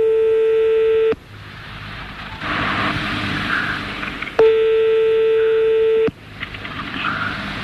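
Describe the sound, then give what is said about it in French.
Telephone line tones while a number is dialled for directory enquiries in France: two long, steady electronic tones with a faint buzz, separated and followed by a stretch of hissing line noise. “On y va, on appelle le 12.”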